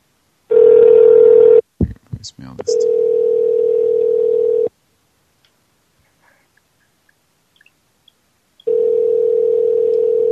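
A steady, loud telephone dial tone is broken by a few clicks and short dialing beeps, then resumes, cuts to near silence for several seconds, and returns as the call is placed.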